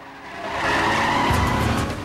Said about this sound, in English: Suddenly, an old banger with a price painted on the window screeches out from another row and tries to ram him.